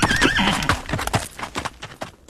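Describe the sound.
A pony neighs with a high, wavering whinny, followed by a run of sharp clip-clop hoofbeats.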